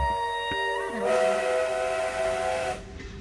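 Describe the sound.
A train travelling, a sustained multi-toned whistle sounding loudly over the steady rumble of the moving carriages, easing off near the end.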